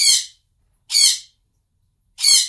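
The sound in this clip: Pet bird squawking its morning wake-up call: three loud, harsh, high-pitched squawks, evenly spaced with silence between them and no other sounds.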